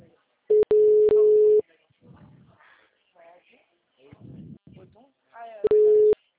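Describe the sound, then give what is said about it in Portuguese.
Telephone busy signal on a call: a steady mid-pitched tone sounds for about a second, then after a pause a recorded voice speaks before the tone returns briefly. “Vou tentar ligar novamente para aumentar para você.”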